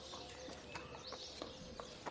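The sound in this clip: Horse hooves clip-clop faintly as a rider leaves on horseback, a few sharp, irregularly spaced knocks over a low, steady background hiss.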